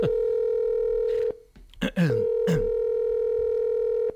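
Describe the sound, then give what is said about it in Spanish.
A telephone being dialed for a call: a steady dial tone breaks off for a moment of short shifting tones, then returns and holds steady. “Voy a llamar FIFA ahora mismo.”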